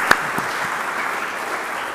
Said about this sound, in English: We'll give yourselves a round of applause.